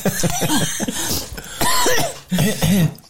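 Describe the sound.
Loud, harsh coughing from a person with an irritated throat, coming in a few rough bursts separated by short pauses.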